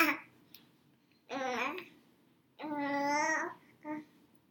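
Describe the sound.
A baby being held babbles in a few drawn-out, tonal vocal bursts separated by quiet pauses, ending with a brief short coo.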